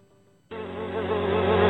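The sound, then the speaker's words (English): Flies buzz in a loud, steady drone that starts abruptly after a short quiet moment and holds without a break. “Sometimes see them flying or running across the floor. Ew, yuck. Bugs. I loathe bugs.”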